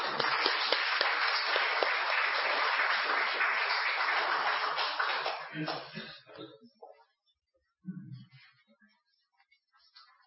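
A church audience applauds to welcome a pastor with sustained, dense clapping that tails off after about five seconds into near silence.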